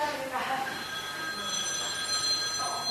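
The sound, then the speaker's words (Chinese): A mobile phone rings in the room, its steady electronic tone repeating throughout, with a voice briefly heard over it. “边个电话”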